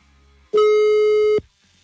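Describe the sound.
A single beep of a telephone busy signal after a number is dialed. The steady, loud electronic tone with a buzzy, harmonic-rich timbre lasts just under a second, then cuts off abruptly over faint background noise.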